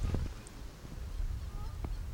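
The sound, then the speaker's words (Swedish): Geese honking in the background at a birdwatching spot, a few short, faint nasal honks scattered over a low rumble. “Är det gässen som låter där i bakgrunden eller? Ja, det är gässen som låter tillbaka.”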